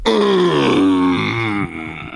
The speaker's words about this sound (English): That's a grunt or groan of pride. That is approval.